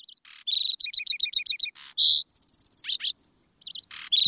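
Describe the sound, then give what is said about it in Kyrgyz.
A skylark sings overhead: loud, rapid, high-pitched chirps, trills and whistled notes follow in quick varied bursts, separated by brief gaps, with no other sounds. “булардын так үстүнөн газала чымчык торгой сайрап эмеспи?”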